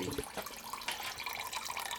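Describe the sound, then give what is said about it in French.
Liquid drips and trickles from a wood-fired boiler used to process wine: a faint, steady watery patter with a few sharper drip sounds scattered through it. “On entend le goutte à goutte”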